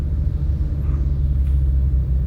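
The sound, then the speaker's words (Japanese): A car engine gives a steady, deep rumble that holds even and loud throughout, with no clear rise in pitch and no voices. “ゆっくりアクセルを踏み込んで”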